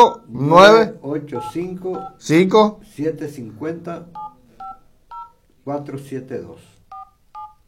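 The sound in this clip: Telephone keypad dialing tones come from a phone calling a customer service number: a string of short, steady two-pitch beeps in quick bursts. A person talks before the tones and again partway through the sequence.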